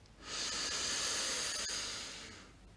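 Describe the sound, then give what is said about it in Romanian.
A slow, deep inhale during a guided relaxation meditation, a soft, airy breath drawn in steadily over a couple of seconds, faint and alone, easing off at the end. “Inspir adânc și mă relaxez.”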